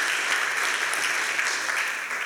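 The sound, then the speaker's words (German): Audience applause follows a talk about a forced labour camp in Leipzig. The clapping is steady and even, a soft, continuous patter that fades a little toward the end. “Applaus”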